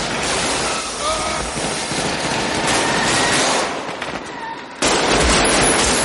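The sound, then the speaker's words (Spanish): Gunfire from several shooters shattering a car's driver-side window in the 1995 film Heat; a loud, dense barrage of shots and crackling that eases for a moment before a sharp renewed blast near the end. “Vincent, Casals y Draper disparan y rompen la ventanilla del conductor.”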